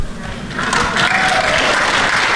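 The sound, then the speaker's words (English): Audience applause for a speaker's remark about the prison abolition movement: a loud, dense wash of clapping that swells slightly after the opening moment and stays steady to the end. “Look at that applause.”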